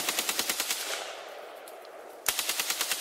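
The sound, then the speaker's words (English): Rapid automatic fire from an AK-47 rifle: two loud bursts of sharp, evenly spaced cracks, separated by a long fading echo tail, with no voices. “one very distinct thing about the AK-47 is the sound that it makes when it fires.”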